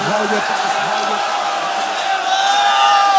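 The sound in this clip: A crowd at a mourning gathering shouts loudly together, a continuous, sustained massed roar of voices that barely wavers.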